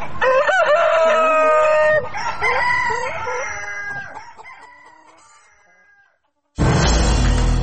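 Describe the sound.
Chickens kept at home, a rooster crowing and hens clucking in loud, harmonic, wavering calls that gradually fade, then a short silence before a sudden burst of broad, rough noise at the end.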